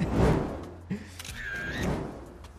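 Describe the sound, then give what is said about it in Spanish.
A camera takes a photo: a soft mechanical shutter click, then a brief high electronic tone, both fairly quiet over a low background hum. “¿Te puedo sacar una foto ahí un segundo?”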